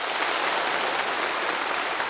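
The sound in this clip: Thunderous applause at a science and technology award ceremony, a dense, even wash of many hands clapping that holds steady without a break.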